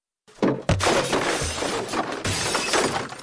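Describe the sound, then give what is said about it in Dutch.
Medicine bottles fall from a toppled nightstand and shatter, with a few loud glass crashes in quick succession followed by continuous bright tinkling and rattling of breaking shards. “de nachttafel kantelde en de medicijnflesjes vielen rinkelend in stukken.”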